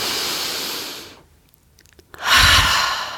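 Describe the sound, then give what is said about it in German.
Deep breathing while seated cross-legged and raising the shoulders in a breathing exercise: two loud, airy breaths separated by a short quiet pause. “Atme ein, zieh die Schultern hoch.”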